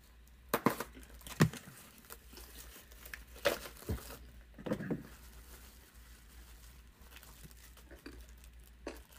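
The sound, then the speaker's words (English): Wrapping crinkles and tears as a ring box is unwrapped: a few sharp, papery crackling bursts separated by quiet stretches of faint rustling, fairly soft overall. “He's unwrapping it, guys. I'm unwrapping it. The ring.”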